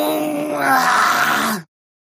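A piercing, mocking scream comes from behind. It is one loud, drawn-out wailing cry that holds for about a second and a half and then cuts off abruptly into silence.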